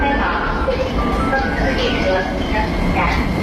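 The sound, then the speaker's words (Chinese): A subway train arriving at a platform gives a steady, moderately loud rumble throughout, with a few faint tonal notes over it. “你看地铁来了，咱们一起排队上车喽。”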